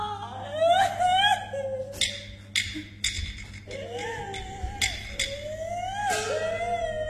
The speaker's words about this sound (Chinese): 阿姐，别哭了。